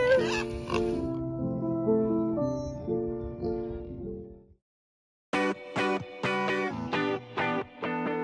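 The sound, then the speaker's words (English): Pig oinking while running toward breakfast, a string of high, nasal squealing oinks, then a brief silence and a second burst of short choppy grunts. “That's when Willie started running as fast as he could, letting out the cutest oink sounds as he made his way over to her”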